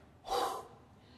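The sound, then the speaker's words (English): A quick intake of breath, a single short airy rush lasting about a third of a second, then quiet again. “Okay, everybody take a breath.”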